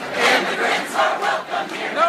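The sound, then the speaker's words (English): Protesters chant in unison at San Francisco International Airport against a travel ban on seven predominantly Muslim countries, a loud crowd whose voices swell and fall in a steady rhythmic cadence. “Yes, those are protesters at San Francisco International Airport.”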